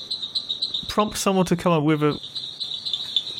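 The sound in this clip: Raorchestes tree frogs call in a dense chorus, a continuous high, shrill pulsing trill that runs through the whole clip, with a person speaking briefly over the middle.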